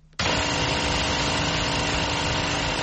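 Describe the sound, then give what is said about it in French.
A generator drones steadily while powering the flour mill of a bakery in Obili, Yaoundé, during a severe fuel shortage. The engine noise is loud and unbroken, with a constant, buzzing hum. “Un générateur alimente le moulin à farine de la boulangerie Obili, un quartier d'Yaoundé.”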